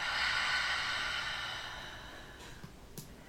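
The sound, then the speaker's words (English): A deep breath during a relaxation exercise: one long, soft, airy breath sound that slowly fades over about two seconds, followed by a couple of faint small clicks. “just take a nice deep breath in and then exhale out.”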